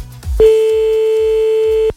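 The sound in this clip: A telephone ringback tone while a call is placed again: one long, steady, mid-pitched pure tone holding for about a second and a half, loud and alone.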